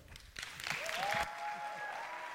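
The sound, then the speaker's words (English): Faint audience applause at a church service as a speaker is welcomed, a brief burst of clapping that stops abruptly after about a second. “So with that said, I want you to welcome our speaker. Put your hands together.”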